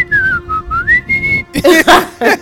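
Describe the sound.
A person whistles a short, wavering tune alone, sliding down and back up in pitch, followed by a brief burst of voice.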